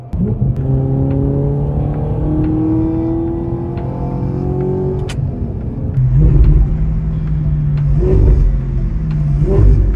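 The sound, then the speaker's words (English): A supercar engine revs with a throaty, rising whine through the first half. It then drops into louder, rumbling bursts of revving toward the end, with no voices. “And frankly, a supercar needs to have the right noise too.”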